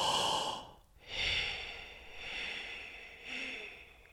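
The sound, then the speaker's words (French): Paced breathing from a breathing exercise of one count inhaling and three counts exhaling. Four airy, hissing breath sounds come in a slow, even rhythm, the first the strongest. No one speaks. “donc là j'ai fait un temps d'inspire, trois temps d'expire”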